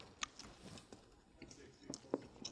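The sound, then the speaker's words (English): People bite into and chew burgers during a taste test. Soft, wet mouth sounds are broken by a few sharp crunchy clicks, while voices murmur quietly underneath. “why don't you guys just take a bite and tell me which one is the real burger.”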